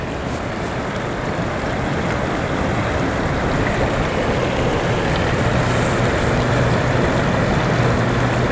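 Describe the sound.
A clear mountain stream flows gently over a high plateau, fed from heights near 2900 meters, making a loud, steady rushing of water that continues unbroken throughout with no voices.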